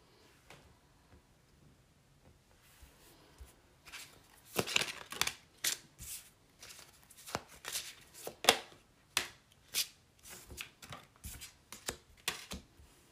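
Tarot cards being shuffled and drawn produce many quick, sharp flicks and slaps in an irregular run, faint at first and then busier and louder, with no talk.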